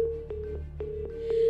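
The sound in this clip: A faint, steady telephone line tone after the caller has hung up. It hums evenly throughout, with soft, regularly spaced clicks across it.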